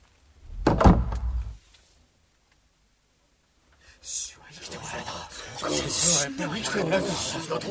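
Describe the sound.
A door is shut and bolted with one loud thud and a rubbing scrape. A pause of near silence follows, then whispering and hushed voices talk continuously.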